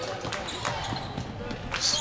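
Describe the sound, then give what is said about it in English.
A basketball is dribbled on the court during a game, with a few bounces thudding at a fairly even pace beneath a constant wash of crowd noise. “Harper picks up the dribble.”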